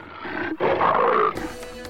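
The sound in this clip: A tigress roars in loud, rough bursts. A sustained growl breaks off briefly, then a stronger roar follows and fades into a lower tail.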